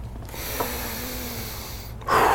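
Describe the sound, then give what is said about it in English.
A deep breath taken during a talk: a long, steady, airy inhale lasting nearly two seconds, followed by a louder, fuller rush of breath at the end. “The first thought is to take a deep breath.”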